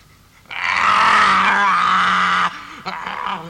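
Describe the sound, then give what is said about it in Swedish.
A deep, rough roar meant as a tiger's growl holds loud and steady for about two seconds, then breaks off, and a shorter growling burst follows. “En tiger.”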